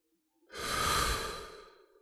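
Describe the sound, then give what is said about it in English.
A deep, slow breath drawn in through the nose during a guided relaxation pause: one long, airy inhalation that swells quickly, holds full, then gradually tapers away. “take a deep breath. In through the nose.”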